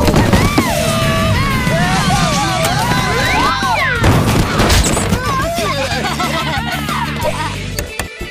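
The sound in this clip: A rocket blast-off in a game bursts out as a loud, noisy roar with whistling sweeps and booms, mixed with excited shouting voices throughout.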